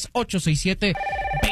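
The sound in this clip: A telephone rings with an incoming call. A voice speaks briefly, then a steady electronic ringing tone sounds.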